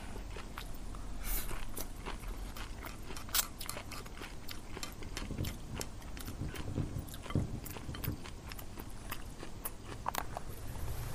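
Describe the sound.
Eating of homemade pan-fried yakisoba noodles, with many soft chewing and biting clicks repeating steadily throughout, fairly faint and without talk.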